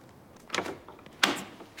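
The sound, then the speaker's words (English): A house door being opened, heard as a few short clunks and rattles from the latch and hinges, spaced apart with quiet gaps between them. “a woman with henna-coloured hair and bright red lipstick opens her door to Ella and hugs her.”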